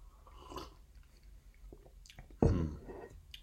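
Tea bought in Hoi An is tasted with a soft sip and slurp, one louder wet pull standing out among faint mouth sounds in an otherwise quiet moment.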